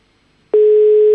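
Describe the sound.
A telephone line tone comes on abruptly after near-silence as a call fails to get through. A single loud, steady pitch holds without a break to the end.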